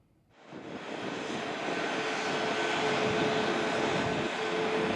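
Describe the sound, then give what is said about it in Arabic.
A passenger airplane takes off from Düsseldorf airport on a direct flight to Damascus. A broad, loud engine roar swells quickly from near quiet and holds steady and powerful to the end, with no voices. “وكان مراسلنا قد رصد انطلاق الطائرة من مطار دوسلدورف إلى مطار دمشق الدولي.”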